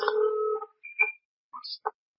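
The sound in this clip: Electronic telephone ringing: a held tone, then several short beeps jumping between higher and lower pitches, heard alone with no talk.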